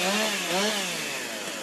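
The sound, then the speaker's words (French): A chainsaw cuts a round from a wooden log at a timber-sports competition, running as a loud, steady high-revving whine with one brief dip in pitch partway through. “important pour commencer ce parcours du World Trophy, bien c'est la prise en main sur cette tronçonneuse et l'attaque de cette rondelle qui doit être réalisée dans la limite fixée sur ce billon de bois.”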